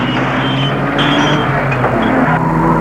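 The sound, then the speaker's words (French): Two cars driving side by side after one overtakes the other, a loud steady engine roar with slight shifts in pitch throughout and no voices. “Elle le dépasse, roule à ses côtés. Les deux voitures sont côte à côte.”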